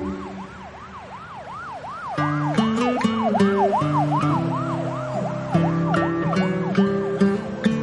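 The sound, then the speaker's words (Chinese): An ambulance siren races along a quiet city street in the early morning, a loud wail sweeping rapidly up and down in a repeating cycle, joined partway through by steady overlapping tones and the hum of the vehicle. “凌晨的明潭市街道很安静，救护车疾驰而过”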